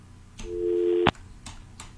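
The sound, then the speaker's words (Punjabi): A phone line tone sounds as a call comes in on a radio call-in show. One steady low beep lasts about half a second and ends in a sharp click, followed by a couple of faint ticks. “Anyway ਪਹਿਲੀ ਕਾਲ ਆ ਗਈ, ਆਈ ਜਾਂਦੀਆਂ।”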